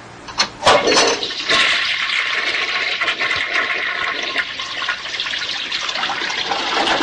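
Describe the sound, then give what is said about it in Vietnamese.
Hot water rushes into a bathtub with a few splashy bursts at the start, then settles into a loud, steady hiss of pouring water that runs throughout. “Mở nước nóng đầy bồn tắm, hơi bốc lên ngùn ngụt.”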